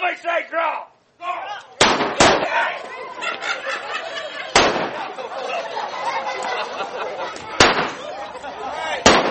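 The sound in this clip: Gunshots ring out in a staged Old West gunfight reenactment in Oatman, Arizona: five sharp, loud bangs at uneven intervals, with crowd chatter continuing between them.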